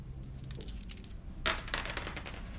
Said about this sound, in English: Whereas the coins, you see, are quick, direct. Three coins,